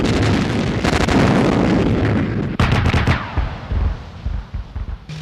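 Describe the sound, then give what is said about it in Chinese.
An artillery battery fires a four-round rapid-fire volley. Several heavy, loud blasts overlap with rumbling roar, a sharp burst cutting in midway and more booms trailing off toward the end. “全连4发急速射， 4发急速射， 放， 放。”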